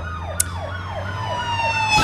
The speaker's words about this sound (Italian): Abbiamo avuto un incidente. Ok, ripartiamo con la polizia che ci insegue.